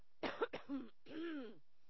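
Throat clearing from a man looking for the first page of a book: a couple of short rough bursts, then a longer voiced rumble with a falling pitch, fairly faint and alone.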